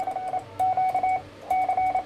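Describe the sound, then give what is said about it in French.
An amateur radio operator calling CQ in Morse code: a steady mid-pitched tone keyed into short and long beeps, sent in a few groups over faint hiss. “Donc là, il appelle CQ. CQ.”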